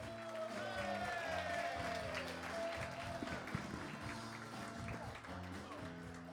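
Audience applause and cheering welcomes a comedian onto the stage at a stand-up show: dense, sustained clapping that stays loud and even for the whole stretch, with crowd noise mixed in.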